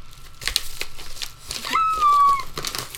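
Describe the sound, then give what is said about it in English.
Plastic packaging on a music album is torn open, with crinkling and ripping in a few uneven bursts and a louder, sustained tearing stretch in the middle. “Tearing open. Ooh. Straight from Atlanta, Georgia. Oh, yeah. The Passion. Is this the newest one? This is the newest album.”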